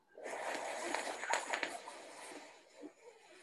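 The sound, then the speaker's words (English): A long breath drawn in through the mouth during a guided breathing exercise: a steady, airy hiss lasting about three seconds that eases off toward the end. “Again, look up. Inhale through the mouth.”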